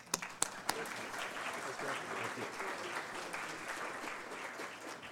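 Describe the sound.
An audience applauding to welcome a speaker at a presentation in Lethbridge on technology, policy and the future of the oil sands: a dense, steady patter of many hands, with a few sharper claps at the start.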